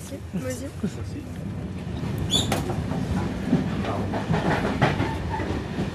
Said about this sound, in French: Mesdames, messieurs, dans quelques instants, notre train tardé de nuit arrivera en gare de Niceville, son terminus.